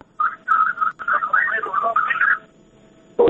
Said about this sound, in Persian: میشه صدای رادیوی خود را خاموش بسازین؟